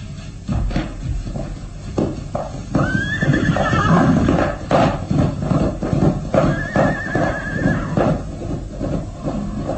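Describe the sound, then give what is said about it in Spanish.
A peasant's horse gallops off into the mist, its hoofbeats a loud, rapid, continuous pounding, with two high whinnies rising above the drumming hooves. “El campesino se aleja al galope hasta perderse en la bruma.”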